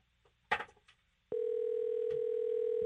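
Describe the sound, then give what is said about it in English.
A telephone dial tone while a call is being placed: a steady, unbroken hum begins after a few brief soft noises and holds evenly to the end. “we're dialing up Cavanaugh.”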